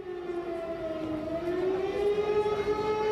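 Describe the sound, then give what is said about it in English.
Air raid siren sounded by protesting activists beside a parliament building, a loud sustained wail whose pitch climbs midway and then holds high, continuous with no voices. “If you can hear an air raid siren going off in the background, it's because there are activists where I am, next to the Parliament building”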